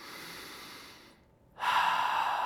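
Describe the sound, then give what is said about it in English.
A big, deep breath: a long, soft, airy breath fades into a brief near-silent pause, then a louder, rushing breath swells in and holds steady to the end, heard alone. “Just a big, deep breath.”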